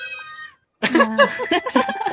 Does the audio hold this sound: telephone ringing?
no